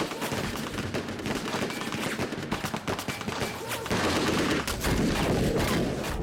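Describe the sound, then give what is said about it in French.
Machine guns fire armour-piercing bullets into a train carriage, a dense, continuous rattle of overlapping shots that grows louder and harsher in the second half. “Des mitrailleuses criblent le premier wagon de balles perforantes.”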